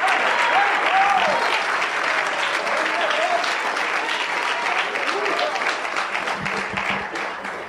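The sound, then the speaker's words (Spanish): Applause from a church audience during a sermon: dense, steady clapping that holds at a strong level for the whole stretch, with raised voices mixed in and a slight easing toward the end. “Y puede aplaudir, aplaude.”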